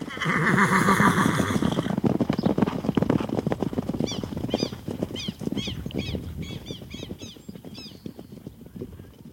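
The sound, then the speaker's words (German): A horse gives a loud, shrill whinny as riders mount up, then hooves settle into a steady clip-clop that continues to the end, with many rapid hoof strikes keeping an even pace. “Aufsitzen, Deputy. Wir reiten nach Plemonsville.”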